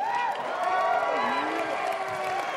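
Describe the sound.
An audience cheers to welcome a speaker, with many voices shouting and whooping together in a loud, sustained roar that holds steady throughout.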